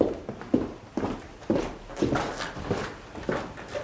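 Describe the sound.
Footsteps of people walking into a salon: a steady series of distinct, hard-edged steps at an even walking pace, with no voices.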